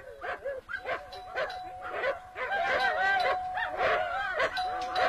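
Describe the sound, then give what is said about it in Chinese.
Two large, fierce wolfdogs bark repeatedly at a villa gate in rapid, overlapping volleys that grow louder, while a steady high ringing tone runs beneath the later barking. “狗叫得这么凶，门铃这么响，怎么还不来开门？”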